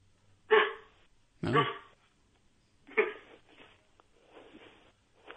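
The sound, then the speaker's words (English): A person imitating a Chihuahua's barking with a few sharp, separated bark-like bursts, loud at first, then a softer, more scattered trail. “But then when you went, woof, woof, I'm a dog.”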